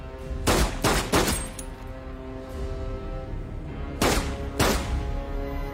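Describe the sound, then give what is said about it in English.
Gunshots in a film scene: five sharp, loud blasts, three in quick succession and then two more after a pause of a few seconds, over a low steady background rumble. “He shoots Doe's character and, in doing so, effectively completes the serial killer's plan to die as a martyr.”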